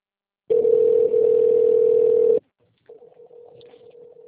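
Telephone dial tone on a VoIP line. A loud, steady single-pitch hum lasts about two seconds, then a brief silence, then a fainter, broken continuation of the tone.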